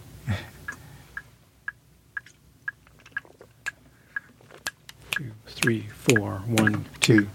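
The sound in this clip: A metronome clicks steadily at 120 beats per minute, with many sharp, evenly spaced ticks about half a second apart. Talking comes in toward the end.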